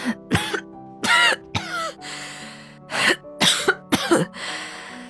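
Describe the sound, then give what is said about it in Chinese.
An elderly grandmother coughs weakly in a string of harsh coughs and throat-clearing sounds. There are many short, loud bursts, some coming in quick pairs, separated by brief pauses. “咳了几声，气若游丝道”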